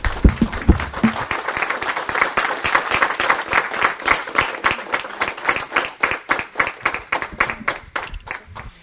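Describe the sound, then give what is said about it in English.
An audience applauds for guests after a talk about voting rights, with many hands clapping in a dense burst that thins toward the end into sparser, distinct claps. “Let's hear it for them, guys.”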